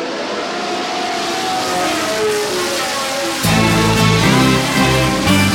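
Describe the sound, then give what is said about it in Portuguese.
Intro jingle for a Formula 1 show opens as a steady, loud roaring wash, then shifts partway through into a heavier, bass-rich tonal layer that carries on to the end. “O futuro chegou. Roda a vinheta.”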